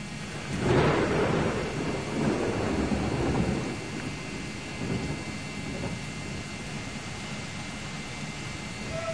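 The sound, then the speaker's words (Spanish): Thunder gives a low, broad rumble that swells early on, then eases into a steady, noisy background. “Sí, está tronando.”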